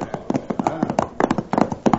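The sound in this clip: Horse hooves clip-clopping in a quick, uneven run of many sharp hollow knocks, fairly loud and continuous throughout.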